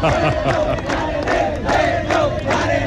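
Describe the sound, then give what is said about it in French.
A crowd cheers and shouts in acclaim of the navy and its sailors, a dense, continuous roar of many voices with surging shouted calls throughout. “Acclamés par la population.”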